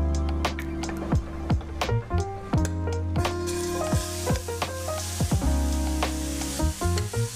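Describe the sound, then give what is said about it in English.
Beets sizzle as they fry in oil in a pan over medium heat, giving a bright, continuous crackle. Background music with distinct rhythmic notes plays throughout. “We will fry the beets, but first we need some oil.”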